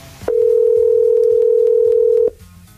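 A steady telephone tone plays on a phone line while waiting for someone to answer a call to a contest winner. It is a single loud, even, mid-pitched tone lasting about two seconds, then it cuts off.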